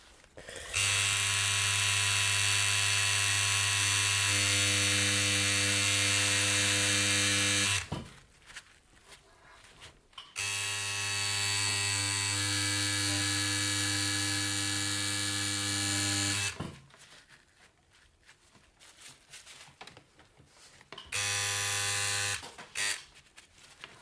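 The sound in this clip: A tattoo machine buzzing while tattooing, a steady electric whine in three bursts: two long runs of several seconds each, then a short one, separated by near-quiet pauses.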